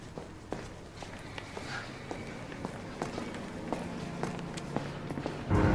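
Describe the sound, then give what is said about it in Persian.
Footsteps coming down a flight of stairs: many soft, fairly regular treads in a steady walking rhythm over a low background murmur, ending in a brief louder rush of noise. “رجبوف از پله ها میاد پایین.”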